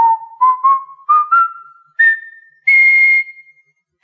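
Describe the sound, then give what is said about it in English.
A video game character whistles the game's theme tune in clear, bright notes, short ones stepping upward in pitch before longer held tones near the end. “whether it's being played on an organ, whether Luigi is whistling it,”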